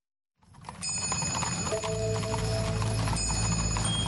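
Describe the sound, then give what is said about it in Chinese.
Horse hooves clip-clopping along an old merchant road: a steady, continuous patter of hoofbeats starts after a brief silence and continues at an even level to the end. “徽商古道，马蹄声声”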